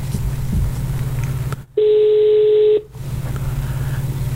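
A single steady electronic ringing tone from a phone call being dialed during carnival lasts about a second, clear and even in pitch, set between stretches of noisy background.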